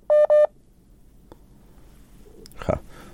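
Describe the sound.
Two short, loud telephone dialing tones ring out back to back as a listener's call to a radio phone-in is connected, followed by near silence and faint line noise.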